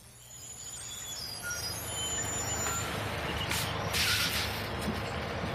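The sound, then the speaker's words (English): A bus pulls up with its air brakes hissing: a steady, loud low engine rumble runs throughout, with a bright burst of hiss rising near the end. “Is this bus going to Riverdale? Yep, I'm headed that way.”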